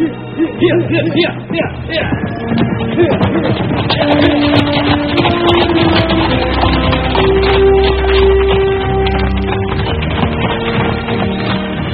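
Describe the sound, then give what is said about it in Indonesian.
Horses' hooves clip-clopping as riders travel on horseback, a steady rhythmic patter that runs throughout over a continuous background of sustained tones. “Mereka terus berkuda ke arah selatan.”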